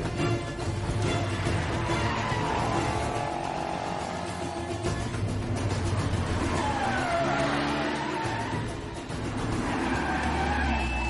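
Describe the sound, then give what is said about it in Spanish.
Car engines roar and rev in a chase through village streets involving a silver Hyundai, with continuous loud motor noise, shifting engine pitch and tyre sounds sustained throughout. “El Hyundai plateado, agáchate. Ella pega la cabeza al salpicadero. El sicario lo sigue por las calles del pueblo.”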